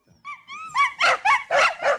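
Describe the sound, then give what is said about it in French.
Two dogs in the bedroom of a small apartment yelping and barking: a couple of high, whining yelps, then a quick run of several loud, sharp barks. “Tiens, vous avez un chien ? J'en ai deux. Ils sont dans la chambre. Les voisins ne sont pas contents, ils font trop de bruit.”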